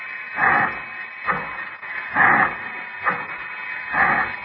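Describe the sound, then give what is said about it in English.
A heart machine pumping blood through tubes and glass piping makes a soft, rhythmic pulsing sound: five even, whooshing pulses about a second apart over a steady high hum. “I could see the blood flowing from the heart machine. It was this machine which made a soft, rhythmic, pulsing sound.”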